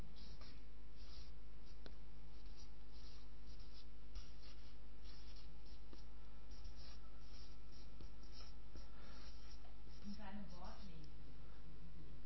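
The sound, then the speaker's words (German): Writing on a board makes many short scratchy strokes in a steady, faint rhythm, with a person briefly talking near the end. “Kann man das erkennen, was ich da schreibe? Okay. Weitere Vorschläge? Seinen Ratschlag befolgen. Ich schreibe mal seinen Rat befolgen, das ist kürzer zu schreiben.”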